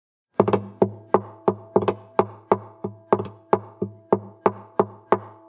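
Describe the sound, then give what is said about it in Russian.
Fingers tap on the hollow body of a guitar in a steady series of many knocks. Each one has a resonant, ringing tone that decays quickly before the next tap. “постучал пальцами по гулкой гитаре.”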